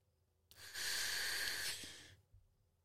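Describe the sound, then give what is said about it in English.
A single steady inhale drawn through a button-activated, Skittles-flavoured vape pen. The faint, airy hiss lasts about one and a half seconds and then fades out. “How do you work this thing? Just push that button and inhale.”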